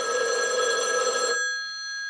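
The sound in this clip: A 1980s landline telephone rings with a steady, bright, trilling tone that stops partway through. A faint tail lingers after it, and no one speaks.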